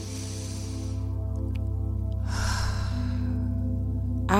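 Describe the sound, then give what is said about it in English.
A single deep inhaled breath, taken during a guided affirmation, rises as a soft airy rush over a steady, low sustained musical drone. “Take a deep breath in.”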